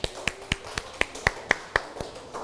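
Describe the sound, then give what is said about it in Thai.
Children in a classroom clap for a classmate, giving about ten sharp, evenly spaced claps at a quick, steady rhythm. The crisp hits stand out clearly above faint background sound. “เยี่ยมมากอ่ะปรบมือให้เพื่อนหน่อย”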